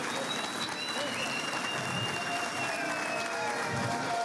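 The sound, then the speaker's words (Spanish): A crowd claps for motorcyclists in continuous, steady applause that runs throughout without pause, with faint voices mixed underneath. “Un aplauso a Johnny y a los motorizados.”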